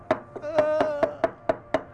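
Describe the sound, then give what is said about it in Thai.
Chili paste being pounded with a pestle in a mortar: a steady series of sharp, evenly spaced thuds, each carrying a brief ringing tone, repeating at a quick, regular rhythm with no talking. “ตำน้ำพริกรอพี่เนี่ย”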